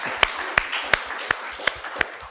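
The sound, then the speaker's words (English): Six sharp, evenly spaced hand claps at a slow, steady pace over a faint background murmur. “Yeah, we're going to be applauding a lot today.”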